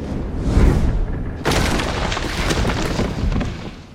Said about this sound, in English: the momentum of the attack flinging him through a nearby wall.